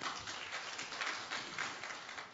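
An audience claps hands in praise during a church service, producing a dense, steady patter of many hands throughout.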